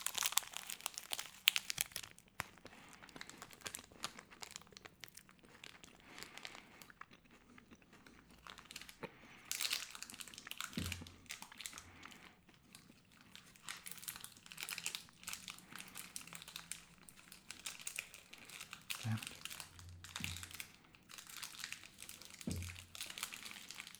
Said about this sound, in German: Ich esse den Schokoriegel jetzt doch nochmal auf. Einfach nur, weil es so schön war. Jetzt muss ich ein bisschen näher ans Knisterpapier ran, sonst saue ich mir hier alles ein.